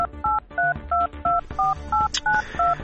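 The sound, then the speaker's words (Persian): Telephone keypad tones as a number is dialed: a quick run of short, clipped electronic beeps of varying pitch, separated by brief gaps. “بذار من شماره این خلوچل بگیرم.”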